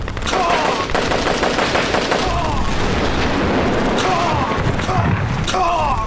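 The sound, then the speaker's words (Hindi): A tank gun fires in the middle of a battle. Dense, loud, continuous gunfire and booming blasts run throughout with no break. “Yes sir, वो tank निशाने पर आ गया है sir. Fire.”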